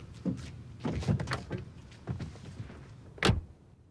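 A car's back door opening as someone climbs in: a few soft clunks and rustling movements, then one sharper, louder thud near the end, with quiet in between.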